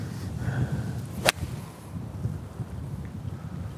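A golf club swing with an 8 iron striking the ball gives one sharp whooshing crack near the middle, set against constant low wind noise.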